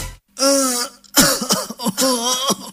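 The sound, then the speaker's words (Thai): A man coughing repeatedly with harsh, rasping, throat-clearing bursts. A longer cough comes first, then a quick run of several shorter ones. “คุณพ่อคะทำไมคุณพ่อไอบ่อย”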